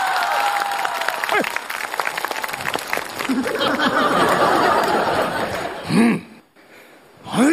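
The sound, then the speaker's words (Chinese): Audience applause mixed with chuckles and laughter during a live comedy sketch show. Clapping runs as a dense, steady clatter with voices over it, then briefly breaks off and swells again near the end. “来了，来，掌声。”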